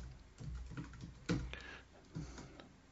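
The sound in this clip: Typing on a computer keyboard produces soft, irregular keystroke clicks, quiet overall, with a couple of sharper, louder taps standing out among the patter.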